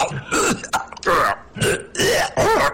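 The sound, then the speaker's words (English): A man clears his throat in a voice-recording session: several loud, rasping, gravelly bursts follow one another with short gaps between them, and no words are spoken. “Throat, I must clear.”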